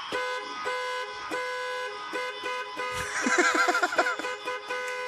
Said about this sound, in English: And beginning ignition of UPS vehicle. I'm headed off in a leftward direction. Tap, tap on the horn.